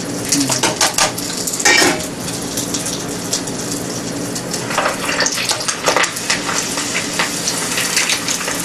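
Food frying in hot oil and handled with long chopsticks: a loud, steady sizzle with scattered clinks and scrapes of utensils against the pan throughout.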